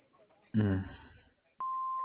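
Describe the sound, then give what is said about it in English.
An answering machine beep tone: a single steady, high, pure tone that starts abruptly after a short spoken bit and holds to the end. “so if you could please leave a message after the tone”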